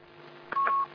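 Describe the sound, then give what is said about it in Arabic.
One brief touch-tone telephone beep as a call connects. It is faint and alone over a low background hiss. “طيب معنا اتصال ثم أعود إليكم”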